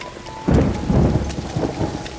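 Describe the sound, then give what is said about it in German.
Rain falls outdoors among fir trees, a soft patter that suddenly swells into a heavy, dense downpour with deep thunder rumbling beneath it, and no voices. “Ja, gehen wir weiter, bevor der Regen noch stärker wird.”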